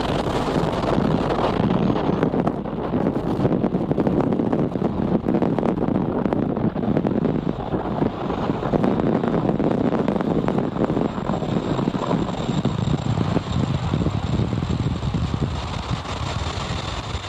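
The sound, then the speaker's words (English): A Falcon 9 rocket lifting off from Vandenberg Space Force Base: a loud, continuous crackling roar with a buffeting, wind-like rumble that stays strong throughout. “That was the thrilling sound of a Falcon 9 rocket lifting off from Vandenberg Space Force Base, carrying three Australian satellites to orbit.”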